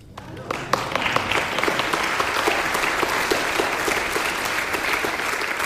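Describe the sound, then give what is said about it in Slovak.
Applause from a concert audience at a Slovak Radio concert featuring a children's and girls' choir. Clapping swells quickly from the start into a dense, lively wash of many hands that stays loud and steady to the end. “Myslím si, že dnes nás múzy naozaj hladkajú a my tlieskame, pretože je to krásny koncert.”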